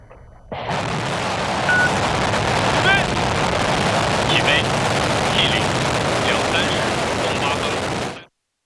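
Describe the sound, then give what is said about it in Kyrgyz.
A deep rumbling roar from a crewed spacecraft's rocket at engine ignition and launch starts abruptly and holds as a loud, dense, steady wall of noise, then cuts off at the end. “23:08 өткөндө ракетага от туттандырылып учурулду.”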